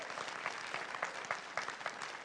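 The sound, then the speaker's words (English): Church audience giving a round of hand claps during a morning service, with many overlapping claps and a few sharper ones standing out in a quiet, uneven patter. “Can you give God a hand clap, one more hand clap this morning for provision?”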